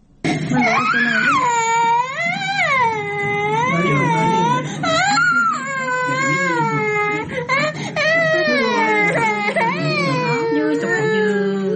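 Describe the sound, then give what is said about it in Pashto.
Hungry children cry loudly and continuously, with wailing sobs that rise and fall in pitch and break off briefly between breaths. “د ماشومانو دا جړاوی د دردونو او یا هم د کومچاله لوري د وهلو څخه نه دي، بلکې دا ماشومان د ډوډۍ او یا هم د خوړو د نشټوالي له امله ژاړي”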